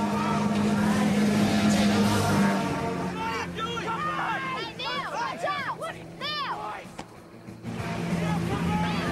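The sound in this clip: A motorboat drives past an island with a steady engine drone, while people shout and talk loudly over it.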